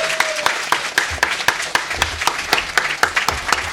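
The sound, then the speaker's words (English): An audience applauds and claps for the resident house DJ at a Game City event, with many quick, crisp hand claps in a dense, steady, fairly loud burst. “Can you put your hands together for Owen, please?”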